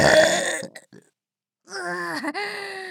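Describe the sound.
A big, deep burp from a person drinking on a tropical island follows a loud, rough vocal burst and a short silence, then rolls on as one long, low, croaking belch.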